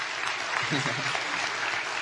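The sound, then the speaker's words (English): Audience applause for a friend introduced during a talk at a gathering: a dense, even patter of many clapping hands that holds steady throughout, with a voice briefly audible over it. “Give a round of applause for Andre.”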